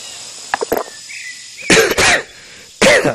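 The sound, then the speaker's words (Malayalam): A man coughs in several rough bursts, a few short hacks followed by two longer, louder fits and a final strong cough, with quiet gaps between them. “ചുമ വല്ലാതെ വീണ്ടും തുടങ്ങിയല്ലോ sir.”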